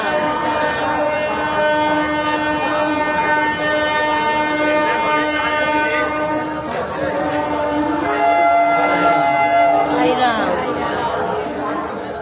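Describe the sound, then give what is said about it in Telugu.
Dense crowd chatter fills a busy railway station in Visakhapatnam. Many voices overlap for the whole stretch over a steady tonal train sound. “2012 August నెల 7వ తేదీ Visakhapatnam railway station”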